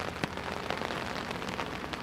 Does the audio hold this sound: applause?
no